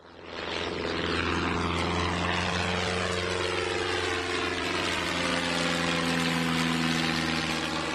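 A propeller airplane flies with a droning engine hum. The sound swells within the first second, then holds a loud, steady buzz with a slowly shifting tone.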